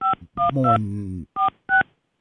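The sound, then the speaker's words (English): A telephone keypad dials five short dual-pitched beeps in an uneven rhythm. A low humming voice briefly overlaps the middle tones. “Can't think and dial at the same time.”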